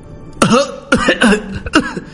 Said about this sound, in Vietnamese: Tiếng ho khan chuyển đến, Lâm Phàm thu tay.